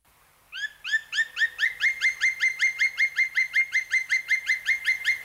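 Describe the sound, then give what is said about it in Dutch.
Black woodpecker call: a long, rapid series of many evenly spaced, clear, bright notes. The series starts abruptly, holds a steady rhythm and grows slightly louder, with no talk. “weet je nog welke vogel het was? Ja, onmiskenbaar. Ja, zwarte specht.”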